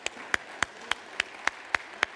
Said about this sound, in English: Let's give the Lord a hand clap now.